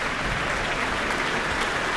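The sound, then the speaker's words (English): Sustained applause from a full concert audience in a town hall after an orchestral program: a dense, even wash of many hands clapping, holding steady loudness with no sign of fading. “No sign of them fading. They clap on, bringing Okko Kamu back to the stage”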